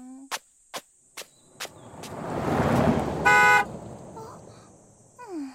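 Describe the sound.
A recklessly driven car passes amid steadily chirping crickets, its broad rushing roar swelling to a peak and then fading, with a short, bright horn toot near the loudest point and a few sharp clicks beforehand.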